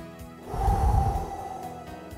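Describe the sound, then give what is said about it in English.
A single slow, deep breath taken during a breath prayer swells up and then fades over about a second, soft and airy, with no talk over it. “let's take a moment to pray together using a breath prayer. Let's have a breath and have a prayer.”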